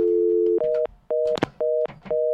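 Telephone dialing tones: five steady electronic beeps separated by short gaps. The first tone is longer and lower, and the rest sit a little higher, with a sharp clatter between the middle tones.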